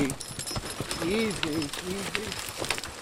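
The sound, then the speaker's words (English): A team of young black Percheron draft horses drags a good-sized log through a woodlot, with scattered hoof thuds and clinks. A man's voice calls out over them. “driving a team of black draft horses, some young Percherons, through a woodlot. They're dragging a pretty good-sized log out into the open to be trucked away and turned into lumber.”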